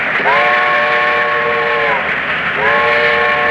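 A train carrying soldiers and dog cages sounds its whistle in two long, sustained blasts separated by a short gap, the second cut off at the end, over a constant loud rumble of the moving train.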